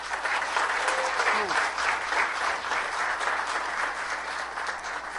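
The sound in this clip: Audience applause welcomes a speaker to the stage at a lecture on Mexican history and the Tepeyac apparition. Dense, steady clapping holds at an even loudness for the whole stretch.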